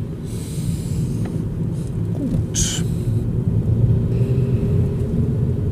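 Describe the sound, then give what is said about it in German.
Low, steady road rumble from a car driving through a valley between villages, continuous and even in loudness throughout, with no voices evident. “Wir verlassen jetzt Friedrichsburg und fahren nach Friedrichsburg.”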